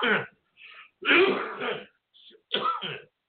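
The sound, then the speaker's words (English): Coughing and throat clearing from someone who has choked on something that went down the wrong way. Several short, rough, harsh bursts are separated by brief pauses, and the middle burst runs longer and louder. “Just had something go down the wrong throat.”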